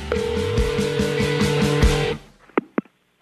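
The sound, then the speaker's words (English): Telephone tone heard while checking voicemail: a steady, sustained line tone with rhythmic pulsing for about two seconds, then it cuts off and two short, sharp beeps follow. “All right. It's time to check Adam's voicemail.”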